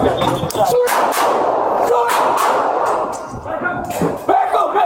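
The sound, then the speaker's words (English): Gunshots ring out in police body camera footage of a shooting with an active shooter in an apartment building stairwell: several sharp, loud cracks burst across a continuously noisy, dense scene, with voices mixed in. “body cam footage of a police shooting on the city's northwest side.”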